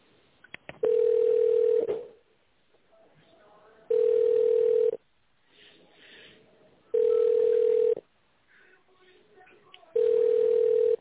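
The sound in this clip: Telephone line tone sounds while a call is transferred: four evenly spaced, loud, mid-pitched beeps, each about a second long, with faint line noise filling the gaps between them.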